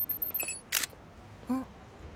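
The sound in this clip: Camera shutter clicking while someone takes photos: a few brief, sharp clicks, fairly faint, spread over about two seconds with quiet gaps between them.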